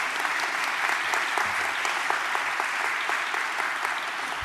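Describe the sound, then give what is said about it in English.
Audience at a college gathering applauding its trustees and honored guests, a dense, even patter of many hands clapping at a steady level throughout. “So Criswell College, let's give a hand for our trustees and honored guests this morning.”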